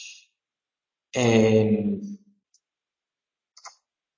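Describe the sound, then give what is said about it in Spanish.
Computer mouse clicks while someone draws with the mouse. A few short, dry ticks are spread out between stretches of silence, with a brief voiced sound between them. “Perdonad que dibuje tan mal, pero dibujar con el ratón es complicado.”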